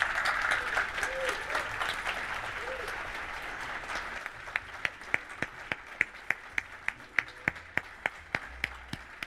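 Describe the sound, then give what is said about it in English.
Audience applause welcomes composer David Arnold and lyricist Don Black, guests on stage at an evening talk about James Bond music. A dense wash of clapping lasts about four seconds, then thins to many scattered, separate claps that fade away. “So please put your hands together and welcome tonight's guests, Mr. David Arnold and Mr. Don Black.”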